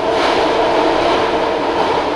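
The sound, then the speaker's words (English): A BART commuter train in the Bay Area runs with a steady, loud rushing roar of rail noise and no clear breaks. No voices are heard. “BART trains.”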